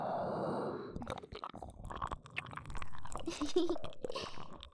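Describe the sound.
Close chewing of crunchy food: many quick, irregular bites and crunches, fairly quiet and spread across the whole stretch.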